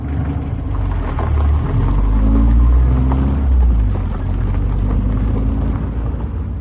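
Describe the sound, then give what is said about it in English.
A car engine rumbles as the vehicle drives away, a low, steady drone that swells briefly in the middle before settling back to an even hum. “We drove for some time in silence.”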